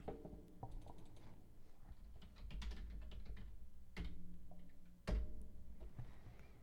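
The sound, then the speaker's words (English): Keystrokes clatter on a computer keyboard in a quick, uneven run of many clicks and taps, with a few louder strikes standing out from the steady typing. “Type it in.”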